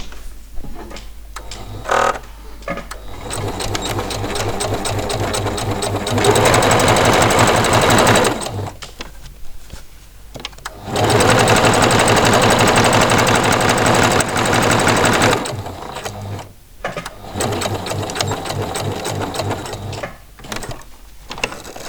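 Sewing machine stitching fabric with a chosen thread, a loud mechanical whir with ticking gears that runs in bursts of fast stitching, two longer stretches louder than the rest, separated by short pauses.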